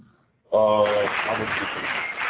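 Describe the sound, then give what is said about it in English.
Audience applauding during an interview, bursting in suddenly after near silence, then a dense, steady wash of clapping that continues to the end. “Oh, wow, there's an audience in that interview.”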